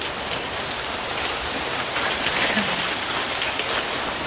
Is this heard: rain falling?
yes